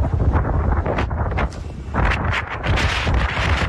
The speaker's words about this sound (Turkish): Ardından kuvvetli rüzgar etkisini gösterdi.